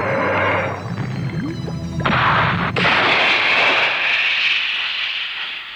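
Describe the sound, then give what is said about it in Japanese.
A missile launch roars out in a burst of rumbling blasts that swell suddenly, then settle into a loud, sustained, hissing roar. “時間だ。ミサイルを発射。”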